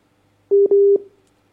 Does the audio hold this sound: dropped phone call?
yes